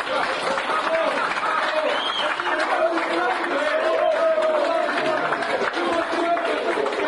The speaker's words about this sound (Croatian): a vi je nagradite još jednom aplauzom